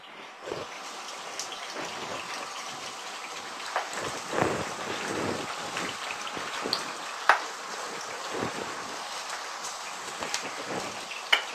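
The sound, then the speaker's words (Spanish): Potatoes fry in a pan of oil deep enough to cover them, giving a steady crackling sizzle with scattered sharper pops throughout and no talking. “Hemos añadido en la sartén aceite para que cubra todas las patatas.”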